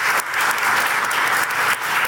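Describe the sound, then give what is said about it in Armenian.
Loud, sustained applause from a climate conference audience after a speech, dense clapping from many hands that dips briefly a couple of times before swelling again. “Հետազոտական կենտրոնի ղեկավար նստեության աղքատ երկրների անունից էր խոսում, ելույթը ծափահարություններով ուղեկցվեց։”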